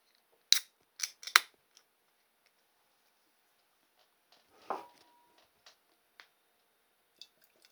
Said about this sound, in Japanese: グリーンラベルを開けていきたいと思います